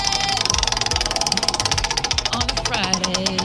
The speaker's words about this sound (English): let me just pull up here the wheel. And would you like to give it a spin? Let's spin it!